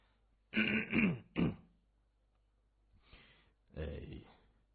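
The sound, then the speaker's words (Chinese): A man clears his throat with a rough, rasping rattle in two quick bursts, then after a pause gives another harsh, dry cough-like burst, with no other sound around it. “他清清喉咙，干咳一声”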